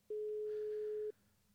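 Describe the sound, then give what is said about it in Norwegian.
A telephone ringback tone sounds as a call is placed: one steady, mid-pitched beep lasting about a second, then low hiss. “da skal vi ringe Premier League-kommentatorlegenda Kasper Vikestad.”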